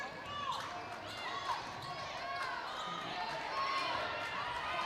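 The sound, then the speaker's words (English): A basketball is dribbled on the court during a girls' high school game, with a few dull bounces under continuous play-by-play commentary. “Now takes a dribble, gives it over to Maston.”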